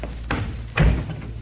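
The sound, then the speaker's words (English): A door is pulled shut and closes with one dull, low thud about halfway through, set against a steady background hum. “Just a minute while I close the door.”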